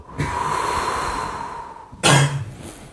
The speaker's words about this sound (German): Atme ein durch deine linke Handinnenfläche, tief ein. Atme aus durch deinen rechten Fuß.